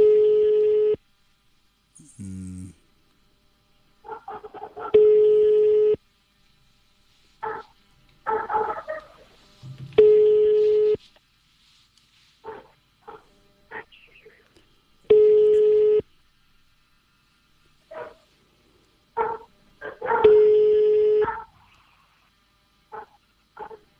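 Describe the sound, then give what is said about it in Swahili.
Ringback tone of a phone call that rings unanswered: long, steady electronic buzzes repeat at even intervals of a few seconds, with a person talking in the gaps between them. “Namba inaita tu. Namba inaita.”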